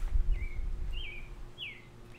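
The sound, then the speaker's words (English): A bird calls outdoors with three thin, whistled chirps spaced evenly apart, faint above a low background rumble and hum. “I think that bird really wants to be on the podcast.”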